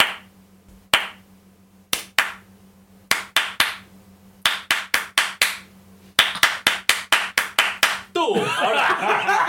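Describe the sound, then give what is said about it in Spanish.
Hand clapping from a few people applauding themselves: many sharp, uneven claps that come in loose bursts and quicken, ending in a dense continuous patter of clapping. “Aplauso. Aplauso. Espera, aplaudimos a nosotros.”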